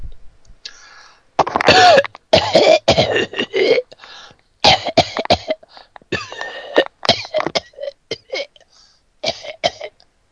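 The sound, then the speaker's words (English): Repeated coughing and throat clearing, with many harsh, loud bursts in irregular clusters separated by brief gaps. “I'm gonna cough a bunch.”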